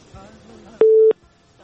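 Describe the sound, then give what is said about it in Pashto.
A telephone busy signal after a call is cut off: one short, loud, steady tone, following faint talk. “فکر کوم چې اړیکه یې پرې شوله”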